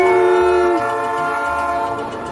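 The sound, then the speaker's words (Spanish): A locomotive's train horn blows loudly as a steady chord of held tones. One lower note drops out early, and the remaining tones sustain and ease off slightly toward the end, with no voices. “Es un inigualable tren o locomotora chuchu.”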